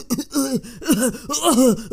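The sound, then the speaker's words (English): A voice imitates someone choking on pollen: a wordless run of strained, croaking vocal gurgles, each swelling and dipping in pitch, repeated several times at a loud, steady level. “he'd breathe in too much of that pollen and he'd choke on it, and there'd be a long scene where he's like”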